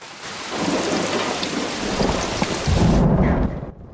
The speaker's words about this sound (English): It's a dark, rainy night at the Devereaux house.